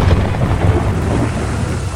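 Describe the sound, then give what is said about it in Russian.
Thunder and rain of a storm at sea: a loud, continuous low rumble with a steady hiss of falling rain over two seconds, no voices. “Нас захватил второй шторм.”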